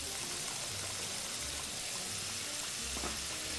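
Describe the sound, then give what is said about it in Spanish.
Potatoes frying in hot oil after being tipped in from a strainer give a steady, dense sizzling hiss that runs unbroken and fairly loud through the whole stretch. “Ahora vamos a freír. Ojo, se me quedará alguna dentro de... ¿eh? Mira cómo se caen, oye. Cómo se me caen todas.”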